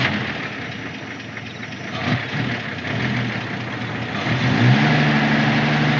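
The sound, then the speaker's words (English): A tow truck engine runs as the truck prepares to haul a car away. A steady mid-pitched rumble with a low hum grows somewhat louder toward the end, where a rising tonal whine appears. “The fella gets back into the tow truck and cranks it up.”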